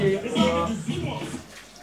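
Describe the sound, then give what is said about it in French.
Water sloshing as rice is rinsed at a cooking workshop, a soft wet swishing that stays mostly beneath people talking. “On a le riz, on est en train de rincer le riz.”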